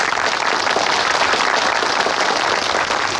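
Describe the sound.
An audience breaks into warm applause to welcome a newly appointed brigade leader sent by the Party organization, a dense, steady wash of clapping from many hands that holds evenly throughout with no talk over it.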